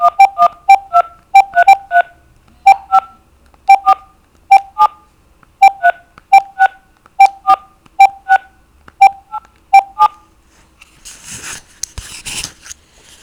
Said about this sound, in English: you have $1.76 remaining in your account. Please enter the telephone number you wish to dial now